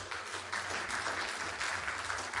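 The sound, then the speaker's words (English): A church audience applauds two new members at an evening service: soft, continuous clapping that stays even throughout, with no voices standing out. “They're both here tonight, so just give them a round of applause.”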